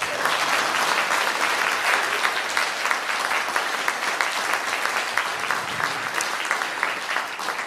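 Warm applause welcomes a couple of guests at a morning gathering. The crowd claps loudly and densely in a steady, unbroken wash that lasts several seconds without fading.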